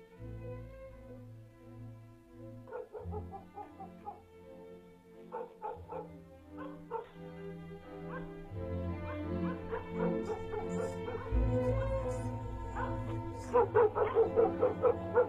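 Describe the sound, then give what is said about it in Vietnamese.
Dogs howl and whimper in intermittent bouts across a small village on a cold, dark night, over a steady low drone, with the cries growing denser and louder toward the end. “cùng với tiếng chó tru thử từng chập ở khu làng nhỏ thuộc huyện Ninh Mộc, tức là tỉnh Bình Dương ngày nay.”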